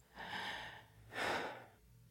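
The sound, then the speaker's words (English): A person draws a deep breath, heard as two long, soft, airy breath sounds. The second is louder and breathier than the first, and both sit faint and alone without speech. “Take a breath with me.”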